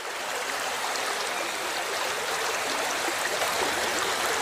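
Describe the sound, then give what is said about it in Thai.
A stream flows fast over fine gravel and sand, swirling into small eddies over dips in the bed, making a steady, dense rushing wash that stays even in loudness throughout. “เต็มไปด้วยกรวดทรายเม็ดเล็กๆถูกพัดพามาด้วยความเร็วเมื่อไหลผ่านบริเวณหลุมเล็กน้อยบนพื้นเกิดจุดวนเวียนบนผิวน้ำ”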